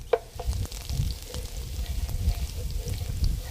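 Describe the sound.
Peperoncino toasts in a pan and gives a continuous crackling sizzle. A wooden spoon stirs it, adding a sharp knock at the start and scraping strokes throughout.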